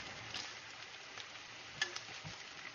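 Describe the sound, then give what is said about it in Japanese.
Pork belly fries in a frying pan for yakisoba, a faint, steady sizzle broken by a few sharp small pops. “えー、肉が焼けてきたので、肉を引き上げて、この今日バラ肉なので、油を敷く手間がね、一個省けましたね。”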